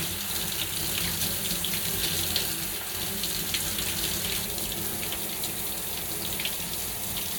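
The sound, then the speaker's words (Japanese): Running water from a tap rinsing one side, a steady, continuous hiss and splash that holds at an even level throughout with no talking. “まずはこっち側を流していきます。”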